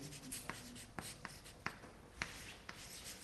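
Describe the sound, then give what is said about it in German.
Handwriting of notes on a discussion, faint scratchy strokes punctuated by several sharp taps in an uneven rhythm. “Ich werde gleich noch ein paar Punkte über die Diskussion dazu schreiben.”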